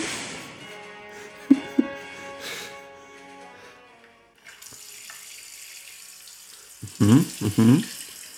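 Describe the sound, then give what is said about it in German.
Water sprays from a tap in separate sprinkler-like jets, a steady broad hiss that sets in partway through after quieter, more varied sounds and runs to the end. “Diese einzelnen Sprenkelstrahlen von dem Wasserhahn sind irgendwie. Sehen eleganter aus, das andere ist spritzt.”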